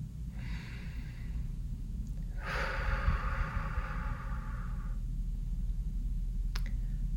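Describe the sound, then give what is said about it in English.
A deep breath: a soft, airy inhale is followed by a longer and louder breathy exhale, both over a low, steady background hum. “Nice deep breath again.”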